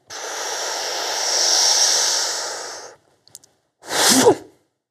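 A deep breath in during a Shaolin breathing exercise in horse stance with one hand forward: a long, steady, breathy inhalation lasting nearly three seconds, followed after a pause by a short, stronger breath burst.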